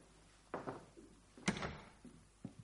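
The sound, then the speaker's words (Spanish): Knuckles knocking on a palace door: a few faint, soft thuds with short dull tails, spaced unevenly over a quiet background. “Espera a que esté preparado y llama con los nudillos.”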